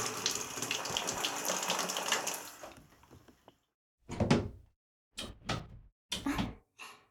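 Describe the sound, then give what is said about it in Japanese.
Warm water rushes and splashes while a scalp is rinsed, a steady flow that fades out after about three seconds, followed by a few short, separate gushes with silence between them. “まずはお湯で頭皮を洗って、次にシャンプーで。”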